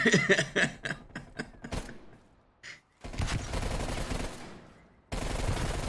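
Gunfire in a video game: a quick run of sharp shots at the start, then a brief lull followed by longer stretches of dense, noisy firing. No voices are heard.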